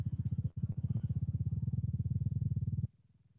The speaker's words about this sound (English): if you go up in eccentricity to something that's moderately elliptical, so an eccentricity 0.5, which is the blue and gold waveform, you get something that sounds like this.